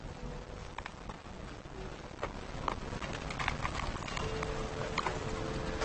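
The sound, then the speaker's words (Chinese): A horse pulling a carriage clip-clops along in a steady, slightly uneven patter of hoofbeats, fairly faint over a constant low background noise. “马车。”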